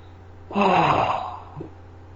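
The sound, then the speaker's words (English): A person demonstrates one breath, in through the nose and out through the mouth, heard as a soft, airy rush of under a second that fades quickly. “we can breathe in the nose and out the mouth and sound like this.”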